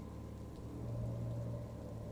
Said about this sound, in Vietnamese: Đáp lại Trân lúc này chỉ có tiếng mưa tí tách bên ngoài